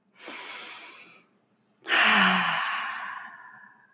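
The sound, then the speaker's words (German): A deep breath during a guided relaxation exercise: a slow, airy inhale, a short pause, then a longer and louder breathy exhale that gradually fades, with no talking. “Du nimmst nochmal einen tiefen Atemzug und atmest tief ein und aus.”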